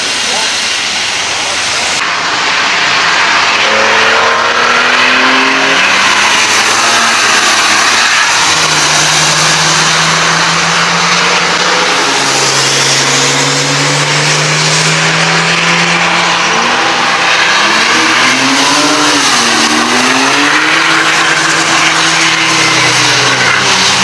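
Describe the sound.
A car drifts around curves with its engine revving up and down in loud swooping surges over a continuous hissing squeal of tires. The sound stays loud and unbroken throughout.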